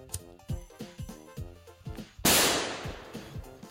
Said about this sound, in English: Stop shooting my guns! Dang it. Stop shooting off guns!